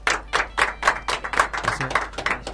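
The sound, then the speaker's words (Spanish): An audience applauds guests at a live event with steady, evenly paced claps in a firm rhythm, each clap crisp and fairly loud, with no voices. “Vamos a ofrecerles un fuerte y cálido aplauso a los invitados que trajo.”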